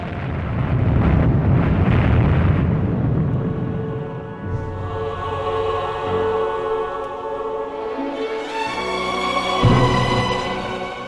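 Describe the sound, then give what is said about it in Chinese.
Atomic bomb explosion, the 1945 US bombing of Hiroshima and Nagasaki: a long, loud, deep rumbling roar that continues unbroken, with its tone shifting and churning throughout. “就系美国向日本广岛同长崎投掷咗原子弹”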